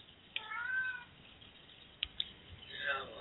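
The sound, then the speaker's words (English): A pet cat meows in the background: two faint, drawn-out meows, the second sliding downward in pitch, with a few soft clicks between them. “if you hear a kitty cat meowing in the background, his name is Red”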